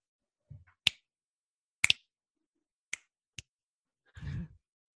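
Sparse finger snaps, about five crisp clicks spaced unevenly with a quick double snap among them, followed by a soft breathy sound, with no talking.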